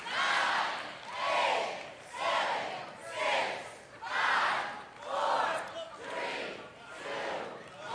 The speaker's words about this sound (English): Come on, cheer them on. Come on, come on. Come on, cheer them on.